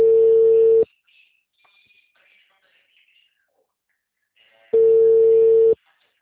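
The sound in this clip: Ringing tones of an outgoing telephone call: two steady, mid-pitched beeps, each just under a second long, separated by a long gap that holds only faint, scattered background noise.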